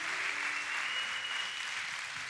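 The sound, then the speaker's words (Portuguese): Steady, dense audience applause for a pastor being introduced, loud and unbroken for the whole stretch, with no talk over it. “y esta noche con usted, con un aplauso que se le caliente la mano, Pastor Jaime Suárez.”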